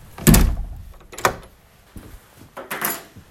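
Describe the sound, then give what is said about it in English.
A house door being pushed shut after someone comes inside, a few distinct wooden thuds and clunks from the door and latch separated by brief quiet gaps. “Then I walk home. And I come inside this house and close the door.”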